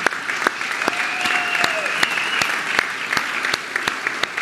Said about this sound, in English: some of you don't even know why you're clapping. They're just because they're amazing.